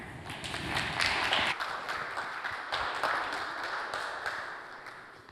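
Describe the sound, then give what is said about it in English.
Audience applause welcomes a reverend to the stage as steady, dense clapping that holds at an even level throughout and tapers only slightly at the end. “So please welcome Reverend Barry Halderman.”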